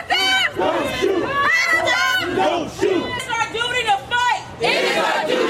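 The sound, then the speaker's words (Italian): A protest crowd in Washington, where 25,000 people marched, shouts loudly in rhythmic bursts with short pauses. Many voices chant together and rise as one, like a battle cry. “avete sentito la protesta a Washington”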